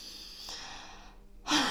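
A deep breath in and out: soft, airy breathing noise that rises into a louder, brief rush of breath at the end.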